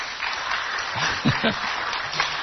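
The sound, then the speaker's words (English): An audience applauds at a church gathering honoring long-serving missionaries, with steady, dense clapping throughout and a voice speaking briefly over it in the middle. “And we're clapping for the Lord as well, right in there, man.”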